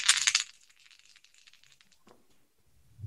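Dice rolled for a tabletop roleplaying game, opening with a short, bright clattering burst, then faint scattered ticks and a small knock before the sound fades.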